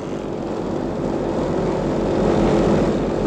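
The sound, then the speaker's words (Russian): Propeller airplane taking off, a dense, continuous engine roar that fills the whole clip and swells slightly louder toward the end, with no voices over it. “Эй, на самолете, вылетайте на базу!”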